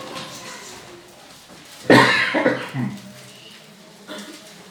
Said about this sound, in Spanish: Es la tos para llamar la atención.